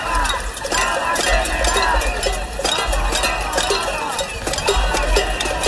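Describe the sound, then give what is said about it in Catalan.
Metal pots and pans banged by protesters in a cassolada at 8 in the evening on Plaça de Sant Jaume in Barcelona, a loud, dense, nonstop clatter of many overlapping clanks. “De fet, és el so de la cassolada a les 8 del vespre que s'ha convocat no només a Barcelona,”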